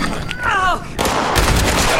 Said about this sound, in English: And what you do is you shoot him like this.